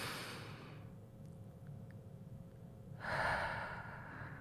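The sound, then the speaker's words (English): One long breath pushed out through an open mouth, a soft, breathy rush of air. A hiss fades into a quiet stretch, then swells again into a louder airy gust. “And then we're going to exhale with an open mouth, through an open mouth. And so it's going to sound something like this. And so the entire breath, one breath, this is what it sounds like.”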